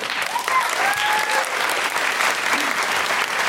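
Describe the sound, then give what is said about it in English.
An audience in front-row seating claps and applauds steadily, a dense even roar lasting several seconds, with a few brief whoops rising out of it early on. “There's a man in the front row who's not clapping. Why not? Why were you not clapping? Is it just too much effort?”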